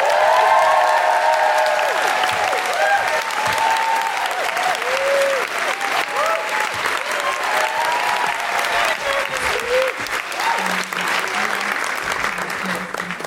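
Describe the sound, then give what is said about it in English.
Audience applause with excited whoops and cheers welcoming a guest, a loud, dense wash of clapping that holds steady throughout with scattered voices rising above it. “Please put your hands together and make excited woohooing noises for Kate O'Donnell!”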